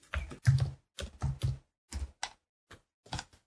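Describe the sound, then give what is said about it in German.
Typing on a computer keyboard to enter a Google search, heard as several short bursts of clicking keystrokes separated by brief silent pauses, fairly quiet and irregular in rhythm. “ich habe gerade nebenbei schon gegoogelt und ich habe einfach nur Wolfgang. Google eingegeben und dann kommt so Wolfgang Amadeus Mozart. Oha. Äh, ja, ich schreibe Animal Crossing dazu.”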